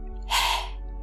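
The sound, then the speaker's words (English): A single forceful yoga lion's breath exhale, made with the tongue sticking out: a short, breathy, airy rush that bursts out suddenly and tails off within about a third of a second. “Get ready for another lion's breath. Empty your lungs. Inhale, 2, 3, 4. Exhale, stick out your tongue.”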